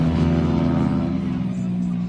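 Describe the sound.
A motorcycle circles a race track as a young rider presses harder once the tyres have warmed. Its engine holds a loud, steady, droning roar with an even pitch across the whole stretch.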